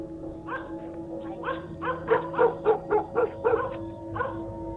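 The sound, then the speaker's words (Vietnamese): Dogs bark in a village, a run of sharp, repeated woofs and yaps: a few spaced barks first, then a quick, loud burst in the middle, and one more bark near the end. “Cả làng có động, chó sủa lên ông ổng.”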